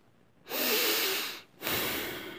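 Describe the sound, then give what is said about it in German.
Breathing in and then out, two airy breaths of about a second each with a short silent gap between them, the first slightly longer and louder. “Ich atme ein und atme aus.”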